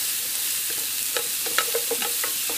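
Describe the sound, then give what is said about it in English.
Food sautéing in a pan until transparent, a soft steady sizzle with a few short scraping clicks from stirring. “Just want to saute this until it's nice and transparent.”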